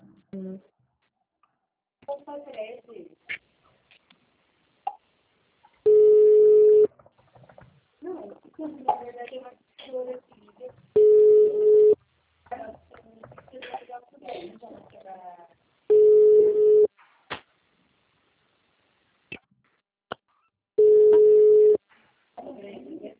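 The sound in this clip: A telephone rings with an incoming call, four steady one-second tonal rings spaced about five seconds apart, with people talking between them.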